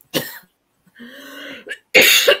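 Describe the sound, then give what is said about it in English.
A person coughs repeatedly during a live talk, a few harsh, explosive coughs with a voiced, rasping throat-clearing sound between them, loud and alone. “I have to excuse me, I'm sorry, I'm coughing rather a lot tonight.”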